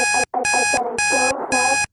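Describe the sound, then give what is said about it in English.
An alarm clock beeps in four loud, evenly spaced bursts of rapid pulsing tones. A song plays underneath, and its melody comes through between the bursts. “in the background, you can hear a song playing at the same time as an alarm going off.”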